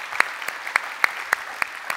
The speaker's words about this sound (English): So, if you are in person, would you put your hands together and welcome in our online community?